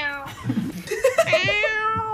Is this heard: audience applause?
no